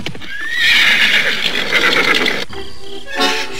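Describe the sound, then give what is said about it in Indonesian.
Galloping horses: a loud, high whinny rises and rings out over busy hoofbeats, with the drumming continuing and another brief neigh near the end. “Lastri bertanya, dari kejauhan ia mendengar suara derap kuda yang mendatanginya.”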